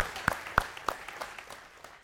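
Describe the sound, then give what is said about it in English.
A church audience applauding, with a few distinct claps standing out before the scattered clapping thins and fades, fairly quiet overall. “Can we applaud these people?”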